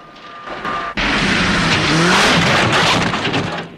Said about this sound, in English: the buggy zips across the rocky surface while the chasing cars crash around on the rough terrain, kicking up thick dust clouds.